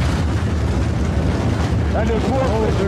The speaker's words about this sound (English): We've got an explosion inside. The building's exploding right now.